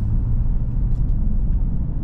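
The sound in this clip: Steady low rumble of a car's engine and tyres as it drives onto a highway on a frosty day, continuous and even throughout with no talk.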